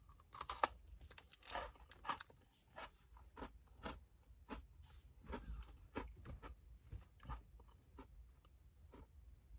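Crunching on cream cookies: many irregular, crisp bites and chews, with occasional sharper cracks and soft crinkling, fairly quiet and with no voices.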